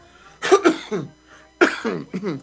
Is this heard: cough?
yes